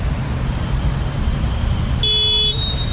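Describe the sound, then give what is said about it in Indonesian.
Road traffic in a traffic jam: a low, steady rumble of idling engines, broken by a single sharp horn toot near the end. “macet banget nih”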